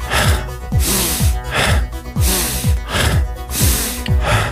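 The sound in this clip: Deep, forceful breathing during a psychedelic breathing exercise, many audible breaths repeating in a quick, steady rhythm, with each breath rushing loud and airy.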